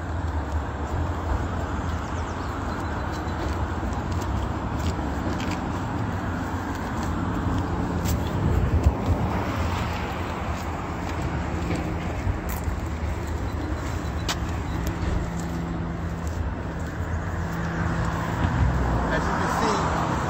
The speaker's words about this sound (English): this Los Angeles County Sheriff chose to come as this, I guess, to show their presence that they're there. As you can see, they're driving off right now.